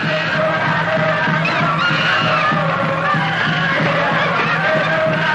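A chimpanzee screeches inside a cage, loud, sustained and shrill, with wavering cries over a pulsing low background throughout.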